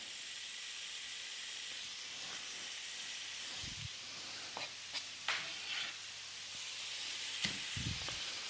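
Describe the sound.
Bacon frying in a pan with butter added, giving a steady, soft hiss and sizzle with a few scattered crackles and pops.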